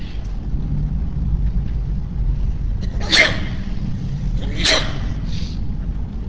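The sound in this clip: Two sharp, breathy sneezes burst out a second or so apart over a steady low background hum, the first slightly louder.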